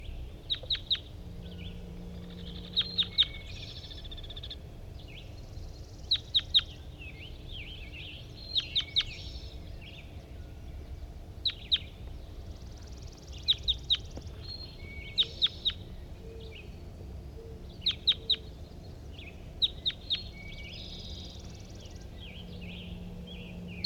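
Bird song with many short, bright chirping phrases in repeated clusters, separated by brief pauses, over a steady low background hum.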